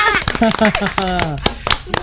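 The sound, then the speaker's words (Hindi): Children clapping, many sharp claps in a loose, fairly regular rhythm while voices speak over them. “शाबाश, बजाओ सी बात, जोरदार तालियां बजाओ, तालियां शाबाश।”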